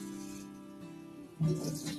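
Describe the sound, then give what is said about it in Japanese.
Tap water runs over yellowtail fish as it is washed for simmering with daikon radish. A faint, steady trickle turns into a louder, fuller splashing rush partway through. “まず洗って、この血の塊とかをね、全部ちょっと取って”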